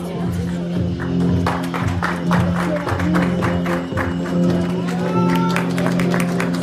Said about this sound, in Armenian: Այս ծափահարությունների տակ զգեստները նոր կյանք են առնում։